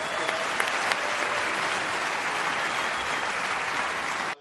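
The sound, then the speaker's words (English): An audience at a Bitcoin Amsterdam conference applauds the panelists after a crypto sovereignty panel, a dense, even wash of clapping that holds for about four seconds and then cuts off. “Eric, Bruce, Jameson, I thought this was riveting. Please give it up for our panelists.”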